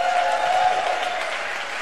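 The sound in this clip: Audience applause at the Bayview Opera House for three guests, a poet, a music critic and a comedian, a dense, steady clapping that starts strong and eases slightly toward the end.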